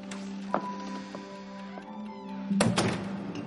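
A bedroom door being closed gives a dull thunk, with one sharp knock early and a louder double knock near the end, over a steady low background tone.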